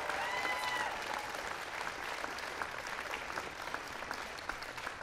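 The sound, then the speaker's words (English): An audience applauds at a celebration honoring the 2010 men's college basketball national champions. The clapping is steady and dense, with light crowd noise, fairly faint and unbroken throughout. “Give them a big round of applause.”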